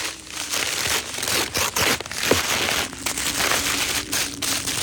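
Gift wrapping paper crinkles and rustles as a present is unwrapped, a continuous crackly rustle broken by several sharper tearing bursts, fairly loud and heard alone.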